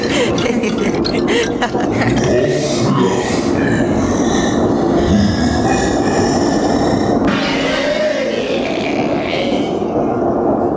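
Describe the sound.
A train rolling on rails as a sound effect, with a dense, steady rumble and rattling filling the whole clip at constant loudness.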